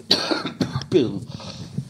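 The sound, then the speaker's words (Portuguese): A smoker's cough and throat clearing: a few rough, gravelly coughs and raspy clears in quick succession, fairly loud. “Era o pigarro do cigarro.”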